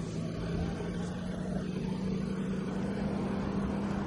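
A car engine runs with a steady, low, even drone that holds without a break from start to end.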